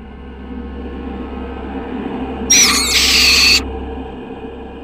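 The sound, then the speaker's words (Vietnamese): A barn owl gives a single loud, harsh, hissing screech lasting about a second. It bursts abruptly out of a steady low background rumble and cuts off just as suddenly. “Từ đâu đó, bỗng có một con cú lợn từ đâu bay tới, rồi đậu ở giữa hai chúng tôi.”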